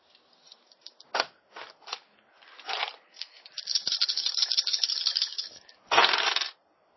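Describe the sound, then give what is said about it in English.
Six-sided dice rattle and clatter in several short bursts, then a longer stretch of continuous tumbling, ending with a loud final burst of clicking. “I'm rolling the wrong dice. This is a D6s.”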